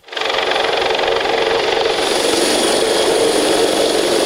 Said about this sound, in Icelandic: Hátíðardagskráin hófst með miklum tilþrifum þegar þyrla gæslunar lenti fyrir utan Hörp.